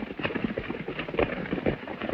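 Hoofbeats of horses galloping across rocky, arid ground, a rapid, rhythmic clatter of many hard hits that continues steadily throughout.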